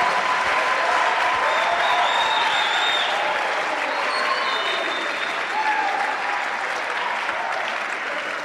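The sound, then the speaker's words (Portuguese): Applause from a church audience, dense steady clapping that stays at a loud, even level from start to finish with no break. “Put your hands together for Jesus. Palmas para Jesus.”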